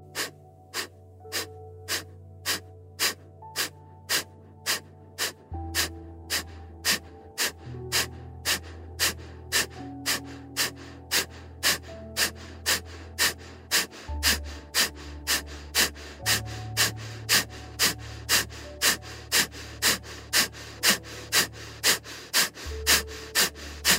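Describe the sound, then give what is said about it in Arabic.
Slow in-and-out breathing for a breathing exercise is heard under soft music: sharp ticks keep a steady beat and sustained low tones shift every few seconds. “شهيق وزفير.”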